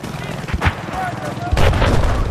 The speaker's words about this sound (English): I'm getting shot.